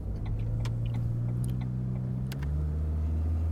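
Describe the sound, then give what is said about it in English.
A car pulling away and driving off: a steady low engine rumble runs throughout, and its tone shifts partway through as the car gets under way. “All the mirrors again, just for good luck. Blind spot. Indicator. Blind spot twice. Okay, thrice. And... we're off.”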